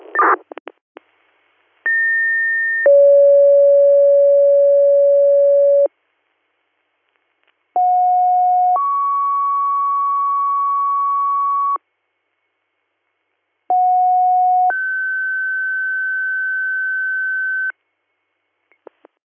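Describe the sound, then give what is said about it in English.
Fire dispatch paging tones sound as three separate two-tone pages, each a short steady tone stepping into a longer held tone of different pitch, with silent gaps between pages and faint clicks at the edges. “did you need a second set of third due tones? I'm going second page of Ridgeberry.”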